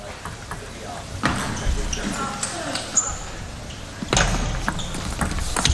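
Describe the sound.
Table tennis ball being hit and bouncing during a doubles match, with a few sharp hollow knocks under ongoing commentators' talk.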